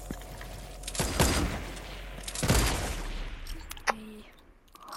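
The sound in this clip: Sniper rifle shots in a video game, with a few sharp, booming cracks spaced through the span and rattling gameplay noise between them.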